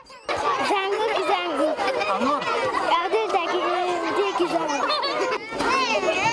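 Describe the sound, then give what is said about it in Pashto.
Schoolchildren play games at a school in Mohmand district, their voices a loud, continuous mix of chatter, shouts and excited calls. “په مومندو ضلع کې په لسو سکولونو کې په لومړي ځل ماشومانو ته د داسې لوبو بندوبست شوی دی.”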